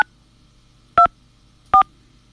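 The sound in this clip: Telephone keypad tones, including the pound key, sound as three short, clean dual-pitched electronic beeps, the first cut off at the start, separated by silence.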